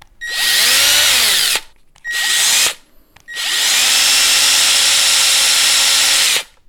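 A Metabo LTX power tool runs with a loud, high motor whine in three bursts: a long run, a short one, then a longer steady run after a brief pause.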